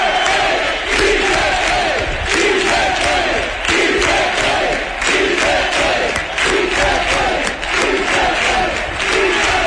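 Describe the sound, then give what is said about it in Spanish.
A large crowd cheers and applauds without pause, a loud, continuous roar of many voices with a chant-like rise and fall that stays dense for the whole stretch. “No dejan de aplaudir.”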